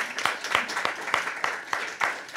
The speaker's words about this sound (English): big round of applause for Jenny and Sienna.